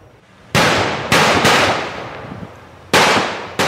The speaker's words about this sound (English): Heavily armed officers deploying flashbangs at a home near Southwest Marine Drive and West 57th Avenue this morning.